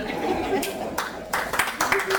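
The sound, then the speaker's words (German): Audience clapping during a German comedy stage act: scattered, irregular bursts of hand claps rise and fade several times while a performer keeps talking over them. “Oh, ihr klatscht schon, wenn ich nur was trinke?”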